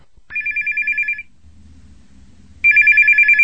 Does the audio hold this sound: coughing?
no

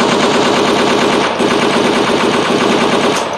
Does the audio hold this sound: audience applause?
no

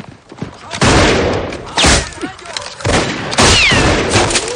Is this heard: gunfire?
yes

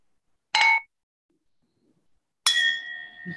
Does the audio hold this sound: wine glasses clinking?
yes

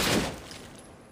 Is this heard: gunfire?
yes

